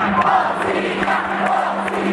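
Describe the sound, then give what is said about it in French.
A crowd of about 20,000 football supporters, families and children among them, greets their new goalkeeper in Santiago with a steady, dense roar of massed voices and a low hum underneath. “Ils étaient 20 000 supporters, familles et enfants, à avoir chaleureusement accueilli leur nouveau gardien.”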